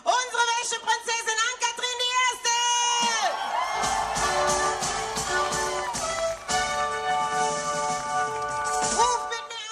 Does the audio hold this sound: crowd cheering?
yes